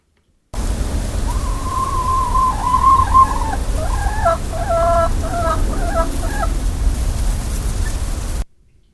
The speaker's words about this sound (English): That's the sound of the begging chicken. That's the sound of chickens.